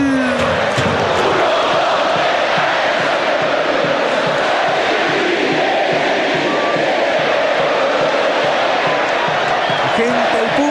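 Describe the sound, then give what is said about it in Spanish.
Football crowd roaring at the Monumental stadium in Macul during a night Colo-Colo match against Audax Italiano, a dense, loud, unbroken wall of cheering and shouting voices that stays full and sustained throughout. “escuchemos el público, escuchemos cómo habla el Monumental acá en Macul.”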